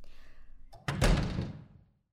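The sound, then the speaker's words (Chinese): A door is shut with one solid thud that rings on briefly and fades, after a faint softer rustle. “把门关上，好吧。”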